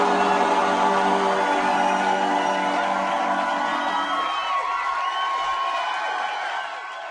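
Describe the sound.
Audience cheering at the Green Cabaret: a dense, steady roar of many voices that holds level throughout, then begins to fade over the last second.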